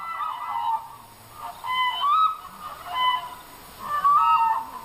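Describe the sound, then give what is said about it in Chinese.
Demoiselle cranes calling in flight over a village in Qiaojia County, Yunnan: a series of honking, trumpet-like calls with squeaky rising inflections, arriving in about four loud bursts roughly a second apart over a faint, steady background. “飞过来了，飞过来了，梭羽鹤飞过来了。”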